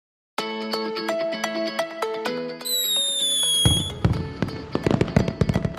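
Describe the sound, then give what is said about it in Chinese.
Fireworks launching and bursting: bright musical chiming tones first, then whistling launch tones, then many sharp crackling bursts in quick succession. “你们看，放烟火了。 哇，烟火好漂亮哦。 对呀、啊、咻一声，烟火就飞上去了。”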